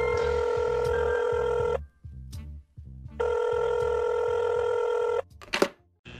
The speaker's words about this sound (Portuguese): Deixa eu ligar aqui para ele.